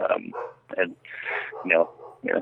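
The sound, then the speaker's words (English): A German Shepherd barks a few times in the background, the barks mixed in with people talking over them. “I'm surprised they haven't barked yet. Yeah, that's my German Shepherd. She's going.”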